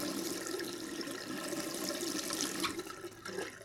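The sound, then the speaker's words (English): Running tap water pours steadily while soap is rinsed off hands, a continuous splashing rush with no voices. “Now, I'll rinse off all the soap”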